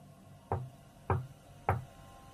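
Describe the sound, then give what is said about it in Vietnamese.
Three dry knocks on a house door, evenly spaced, short and sharp with a dull low thud, alone over a faint steady background hiss. “ba tiếng gõ cửa vào căn nhà của lão đã vọng ra khô khốc”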